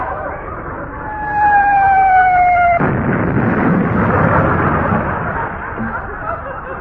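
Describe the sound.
Naval gunfire goes off as one loud blast, which cuts off a sustained whistle-like tone and then rumbles on, slowly fading.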